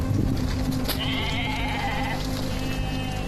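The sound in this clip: A flock of sheep bleats on an overgrazed grassland pasture. A few wavering bleats stand out over a steady, heavy low rumble, with no talk.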